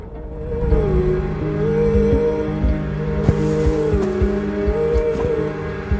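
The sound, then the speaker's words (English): Snowmobile engine driving across snow, a steady droning motor whose pitch wavers up and down as it moves, with a few sharp clicks and knocks along the way. “He pauses the vehicle and looks around for tracks. Finding nothing, he zooms off again across the snow.”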